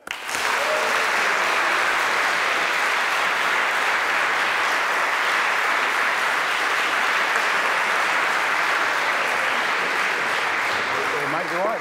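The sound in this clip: Applause from an Oxford student audience greeting guest Tom Skinner, a loud, dense wash of clapping that starts suddenly and continues evenly for nearly twelve seconds.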